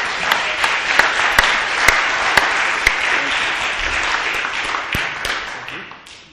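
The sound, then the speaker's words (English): A church audience applauds three new members welcomed into St. Lucas United Church of Christ. It is dense, even clapping with a few sharp individual claps standing out, tapering off at the end. “Give them a hand, folks.”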